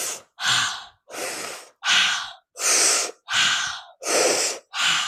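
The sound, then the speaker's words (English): Eight loud, airy breaths through the mouth in a circular breathing pattern, with inhales and exhales following each other in a steady rhythm separated by brief pauses. “In the beginning, we are going to breathe in through the mouth. It's going to sound like this,”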